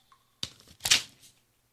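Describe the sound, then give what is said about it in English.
A paper envelope is handled and opened with brief crisp rustles followed by a louder crinkling, tearing burst that fades into soft paper movement. “Got another envelope here.”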